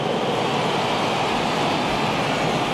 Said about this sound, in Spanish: himno oficial de México al tiempo que tres cazas de la aviación mexicana dibujan la bandera mexicana en el cielo.